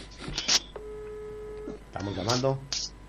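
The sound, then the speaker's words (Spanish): Telephone tones as a phone is dialed for a live on-air call, with a steady tone held for about a second between short bursts of voices. “Estamos llamando a full.”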